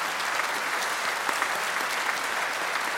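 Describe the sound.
Audience applause during a speech, dense steady clapping from many hands that stays fairly even and moderately quiet throughout.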